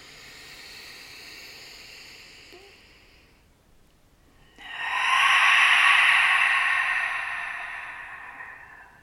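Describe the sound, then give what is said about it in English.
Deep grounding breath drawn in through the nose and let out through the mouth: a soft, hissy inhale of a few seconds, then a brief pause and a louder, fuller breathy exhale that slowly fades. “I'll invite you to take a deep breath in through your nose. Exhale through your mouth, a grounding breath. We'll take two more.”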